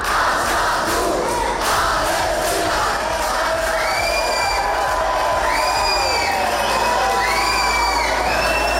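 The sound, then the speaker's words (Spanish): Crowd disturbances at Bilbao airport, where police charged a group blocking the entrance and exit doors during the arrival of flotilla activists. A dense mass of shouting voices roars continuously, and several high, shrill whistle-like tones cut through in the second half. “Sonido de esos altercados, de esos disturbios ocurridos ayer en el aeropuerto de Bilbao.”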